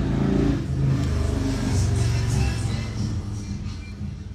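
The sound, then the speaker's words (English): A car speeds past on a street with a loud, steady engine roar that holds for a few seconds, then gradually fades toward the end. “Wow. People just zooming through on my street.”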